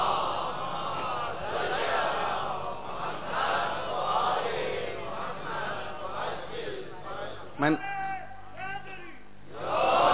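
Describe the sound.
A crowd at a religious sermon shouts a religious slogan together, a loud, sustained roar of many voices, followed by a single person speaking.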